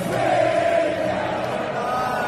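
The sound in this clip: England football crowd singing together at a match, a dense, sustained mass of voices with a steady, broad roar and no pauses.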